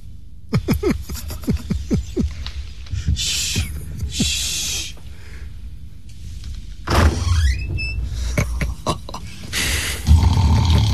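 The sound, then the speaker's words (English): A horse's stable door is opened, with a quick series of sharp clicks and knocks, like a latch being worked. A louder scraping creak with a squeal follows, then further rattling. “Now to open the door to his stable.”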